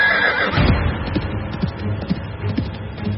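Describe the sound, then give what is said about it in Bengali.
A horse whinnies loudly and shakily at the start, then a few soft hoof clops follow as a lone rider sets off on horseback. No talk. “সাহেব দুর্বলের উপর অত্যাচার মোটে সইতে পারত না, শুনেই ঘোড়ায় চেপে রওনা হয়ে গেল একা।”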